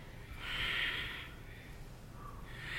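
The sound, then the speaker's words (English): A breathy exhale pushed out during an abdominal twist exercise: a soft, airy rush of breath that swells and fades, with another exhale starting at the end. “Breathing technique here. Breathing out as you twist across.”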